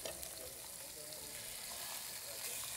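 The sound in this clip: Fish fries in olive oil flavored with garlic, giving a steady, soft hissing sizzle with fine crackles that never lets up.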